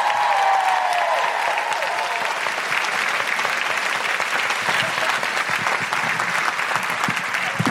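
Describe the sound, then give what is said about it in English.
A live audience at a show in Canberra claps and cheers, a loud sustained roar of hands with a high whoop near the start, staying dense and even throughout. “Put your hands together and make incredible woohooing noises”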